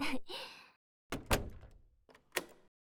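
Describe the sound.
A door being opened: three short, quiet bursts of dull thunks and knocking, separated by brief silences.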